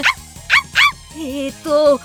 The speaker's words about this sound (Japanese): うわあ、なんだなんだ、子犬。